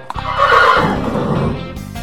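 A horse whinnies in one long, loud, wavering neigh that tails off, followed by a brief quieter sound near the end.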